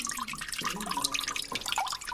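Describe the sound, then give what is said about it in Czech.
Water drips and trickles steadily off a tilted papermaking plate holding a fresh sheet of paper, a continuous splashy patter with no pauses. “Ešte nahýbam destičku s papírem, ze ktoré kape voda.”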